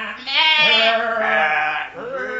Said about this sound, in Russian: Овцы двинулись за ним вдоль улицы.